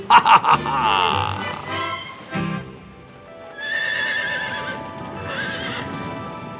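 Horses on a trail: a few quick, sharp hoof clip-clops open the moment, then long, loud whinnying and neighing carries on with a short break midway, drawn-out and strained.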